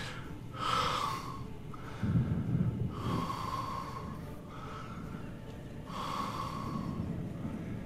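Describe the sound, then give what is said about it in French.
Heavy breathing from an animal: slow, loud huffing snorts and rasping exhalations that repeat in a steady rhythm, with no voices. “vous voyez la, la, bête qui fait juste souffler.”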